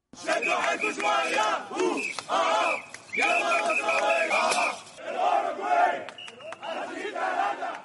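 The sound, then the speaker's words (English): Egyptian and Uruguayan football fans cheer and chant outside Ekaterinburg Stadium before a World Cup opening match, loud massed voices in rhythmic bursts separated by short pauses, with whistles and shouts mixed in. “Fans from both Egypt and Uruguay cheered and chanted ahead of their Friday opening match in Ekaterinburg Stadium.”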